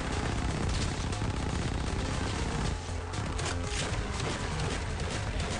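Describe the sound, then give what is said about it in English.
Rapid gunfire from Smash TV, a coin-operated top-down twin-stick arcade shooter where the player shoots zombies. It forms a dense, continuous barrage of loud shots packed with busy electronic game effects. “So we inserted a coin, and it's a top-down shooter where you're shooting zombies.”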